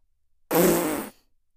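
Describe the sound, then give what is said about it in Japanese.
A woman's fart bursts out once, a loud, raspy blast of roughly half a second that ends abruptly, with no voices around it. “おばさんのおならに負けちゃダメだぞ。”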